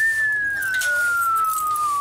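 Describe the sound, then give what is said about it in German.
A loud, clear whistle tone holds for about two seconds, sliding slowly and steadily lower in pitch. Faint background noise sits underneath it. “Dieser Pfeifton, der ist immer für die Kinder, für Papa gedacht.”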